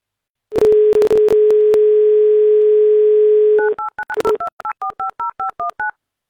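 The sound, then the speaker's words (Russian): A telephone line is dialed to place a call. A steady dial tone runs with a few sharp clicks over its start, then a quick, even run of short two-note keypad beeps follows. “звонок должен сейчас состояться. Гимн «Авторадио» сейчас очень важен. Но пока нет соединения почему-то.”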